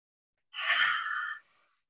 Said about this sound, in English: So then you take three great big deep breaths. Mm. So breathing in and out. And do that a couple more times.